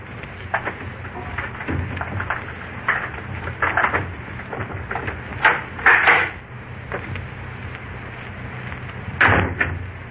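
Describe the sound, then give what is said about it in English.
A lock pick works a door lock: many irregular small clicks, scrapes and rattles of metal in the mechanism, with a few louder knocking bursts near the middle and again near the end, heard alone with no voices and a dull, muffled tone. “So, Nick Carter's trusty pick lock will do the trick.”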